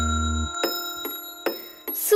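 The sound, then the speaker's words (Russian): Clock ticking: a few evenly spaced, fairly loud knocking ticks over a steady sustained tone with high ringing overtones. “Тик-так, тук-тук, стрелки часов бегут.”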